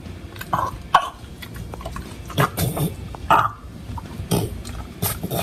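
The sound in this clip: A French Bulldog snorts and grunts while eating a veggie burger, giving many short, irregular, forceful snorts and wet, huffing breaths. Some of the bursts are loud, with brief pauses between them.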